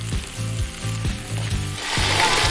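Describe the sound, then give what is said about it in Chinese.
A fish head fries in a pot until fragrant, giving a steady hiss and crackle of sizzling oil that grows louder toward the end. “将鱼头煎的焦香，它将带来鲜香的底味。 这一锅精华现在要下下去了啊！”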